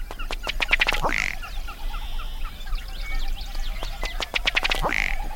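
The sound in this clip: Ruddy duck calling: two runs of dry ticking notes that quicken into a short croaking burp, with faint chirps from other birds between them.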